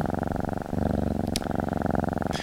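A cat's purr played continuously from a purring machine makes a steady low, rhythmic rumble that pulses evenly throughout, with a brief faint click partway through.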